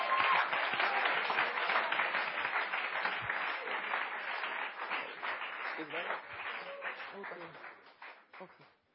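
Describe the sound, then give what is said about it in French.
Applause from an audience clapping for Jesus during a bilingual English and French church service: dense, continuous clapping mixed with voices, holding steady, then thinning and fading toward the end. “Clap for Jesus. Acclamons Jésus.”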